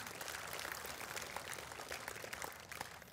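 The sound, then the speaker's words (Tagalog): Congregation applauding in a church, a dense, even wash of many hands clapping that holds steady for the whole stretch without voices. “Palakpakan nga po natin si Lord.”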